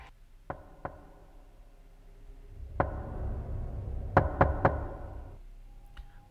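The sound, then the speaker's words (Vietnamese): Knocking on a door in the middle of the night: crisp wooden raps, two single knocks, then another, then a quick burst of three, with a faint final tap, against a quiet, low hum. “Bỗng nhiên, ở bên ngoài có tiếng gõ cửa lộc cộc vang lên. Âm thanh gõ cửa giữa đêm nghe rất rõ ràng, chói tai.”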